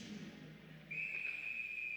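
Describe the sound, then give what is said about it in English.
A referee's whistle sounds off a faceoff at a women's hockey game: one sharp, shrill blast starts partway through and holds steady and loud to the end, after a low murmur of arena noise. “Now a quick whistle off the faceoff.”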